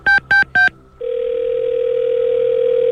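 Telephone dial tone while a call is being placed: three short, evenly spaced beeps, then a steady, unbroken tone that holds at even loudness to the end.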